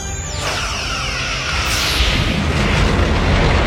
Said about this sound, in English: Return phaser fire. Disable their defensive systems.